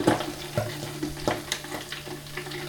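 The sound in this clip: Potato slices deep-fry in oil in a deep fryer, giving a faint, steady sizzling crackle broken by a few soft knocks.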